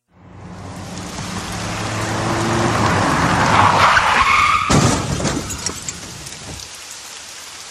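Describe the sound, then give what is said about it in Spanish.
A truck braking hard and skidding on a road in the rain. A broad, rushing screech builds and grows louder. A sharp crash follows, then the noise clatters and fades away. “El otro clavó los frenos y resbaló contra nosotros, chocando tan fuerte que nos tiró de nuevo hacia la ruta.”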